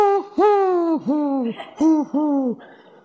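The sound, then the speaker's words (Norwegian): A human voice imitates a wood pigeon's call with a rhythmic phrase of several low, breathy hooting coos, each note gliding downward at its end, loud and with no other sound. “hvis du i skogen, så hører du en skogdua som gjør sånn, så, det ugle? Nei, det egentlig en due, vet du.”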